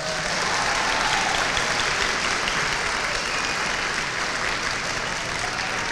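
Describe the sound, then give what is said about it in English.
An audience applauds at the annual Dungarvan Community Concert 2022 in the Friary Church, Dungarvan. Dense, steady clapping holds an even loudness from start to finish, with no voices standing out. “It is my very great pleasure to welcome you here to the beautiful surrounds of the Friary Church here in Dungarvan for the annual Dungarvan Community Concert 2022. Let's hear a big round.”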